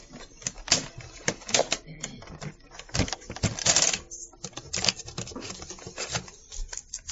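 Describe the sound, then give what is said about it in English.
A cassette tape being turned over in a tape recorder gives many sharp plastic clicks, taps and rattles in an uneven, busy pattern, with brief quiet gaps between clusters. “Well, let me turn the tape over here.”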